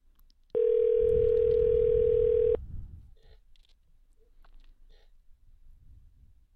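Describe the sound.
A telephone call rings with no answer: one steady, even two-second ringback tone over the line, followed by quiet line hiss.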